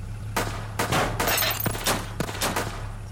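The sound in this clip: Gunfire hitting and shattering the windshield of a police BMW, with a rapid series of sharp, loud cracking bursts and breaking glass over a steady low hum.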